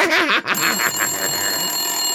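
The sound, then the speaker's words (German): A telephone rings with a shrill, high electronic tone that holds steady and loud to the end. “schon wieder Telefon. Das gibt's doch gar nicht. Wer ruft uns denn hier andauernd an?”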